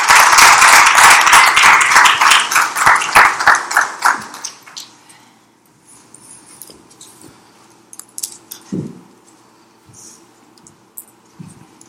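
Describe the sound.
Audience applause welcoming a speaker to the stage: a burst of brisk clapping for about four seconds, then it thins out and fades, leaving near quiet with a few faint scattered knocks.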